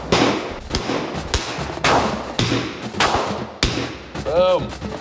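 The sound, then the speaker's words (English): A handgun is fired during a basic firearms course, giving a rapid series of sharp, loud cracks in irregular rhythm over a noisy background. “Firing an actual for real life handgun.”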